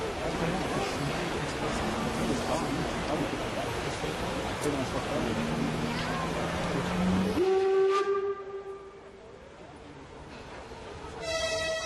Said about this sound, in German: Wir lassen erstmal die Lok fahren.